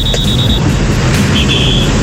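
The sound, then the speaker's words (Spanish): Highway traffic on a busy motorway, a loud, dense and constant roar of passing vehicles with a low rumble underneath and a faint thin high tone drifting over it, without pauses. “Mucho vehículo, pero nada de trancón.”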